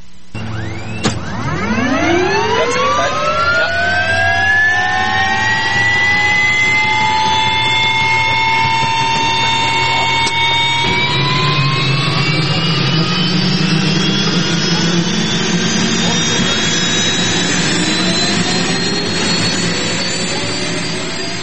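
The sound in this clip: A jet aircraft taking off, its engine whine climbing steadily in pitch over a deep sustained roar, loud and continuous throughout with no voices.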